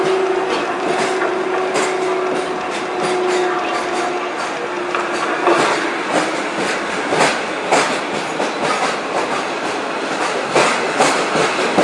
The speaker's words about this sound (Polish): Pociąg SKM linii S30 ze stacji Warszawa Wschodnia do stacji Legionowo stoi na torze 3 przy peronie 4.